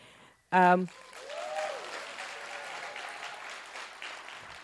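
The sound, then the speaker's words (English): Audience applause at a live storytelling show. A brief, loud burst is followed by a steady, moderate wash of clapping that carries on evenly to the end. “please keep clapping.”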